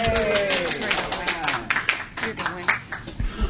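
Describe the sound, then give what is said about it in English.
An audience applauds to welcome a speaker, Wynn Downing. A brief voice comes first, then a burst of uneven, scattered clapping. “I'm going to turn it over to Wynn Downing. Let's give her a hand.”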